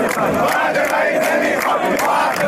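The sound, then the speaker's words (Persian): Striking workers at Bahman Diesel in Qazvin chant protest slogans in unison: a loud, continuous mass of voices with a steady rhythmic pulse running through it. “کارگران بهمن دیزل قزوین دست به اعتصاب زدند. اعتصابی همراه با شعارهای اعتراضی.”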